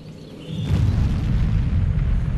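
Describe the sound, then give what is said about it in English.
A nuclear bomb explosion from a political campaign ad: a sudden deep boom bursts in after a quiet moment, then settles into a loud, sustained low rumble. “it has this very powerful image of a mushroom cloud. Please play the ad.”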